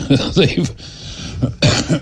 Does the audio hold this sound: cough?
yes

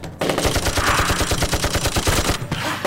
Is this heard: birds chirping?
no

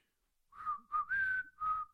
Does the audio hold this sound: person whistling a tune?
yes

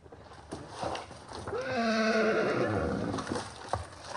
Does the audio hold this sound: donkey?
yes

